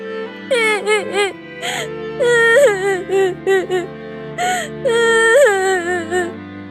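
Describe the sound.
A boy cries in a cartoon fairy tale, sobbing and wailing in high, wavering bursts with short catches of breath between them. The crying is loud and carries no other talk.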